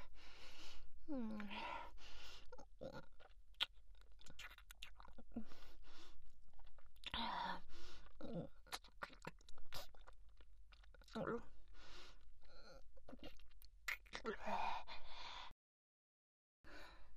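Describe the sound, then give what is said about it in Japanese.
Someone chews and eats food with soft, wet munching and crunching sounds. The sounds are faint and mixed with breathy gasps and sighs. “もう十分食べたでしょ。”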